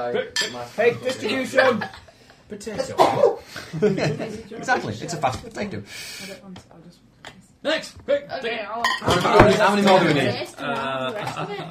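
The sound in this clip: Plates and dishes clatter and clink as they are handed around a table while cake is served. Several people talk and chuckle over the steady clinking throughout.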